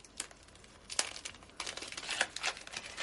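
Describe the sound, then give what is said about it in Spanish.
Wrapping paper crinkles and tears as a gift-wrapped book is opened, with bursts of crisp crumpling and ripping that grow busier toward the end. “Luego coge un libro envuelto en papel de regalo y se lo da. Ya. ¿Qué es? ¿Un regalo? yoyes lo abre mientras su amiga le sonríe.”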